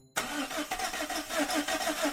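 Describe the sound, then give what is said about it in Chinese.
A car engine cranks but fails to start because its battery is flat. The starter churns in a steady, rhythmic run of pulses and never catches into an idle. “哎，电瓶缺电，打不着火了。”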